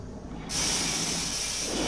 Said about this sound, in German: Nach einigen Minuten hörte ich ein lautes Zischen und fühlte Kälte von den Füßen hochsteigen. Offenbar hatte man Wasser in die Kammern fluten lassen.